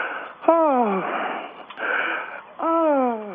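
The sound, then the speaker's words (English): Someone draws a deep breath and lets it out in odd voiced exhales, two falling sigh-like tones separated by a noisy breath, at moderate loudness. “Now, what, you're taking a deep breath and exhaling in a weird way.”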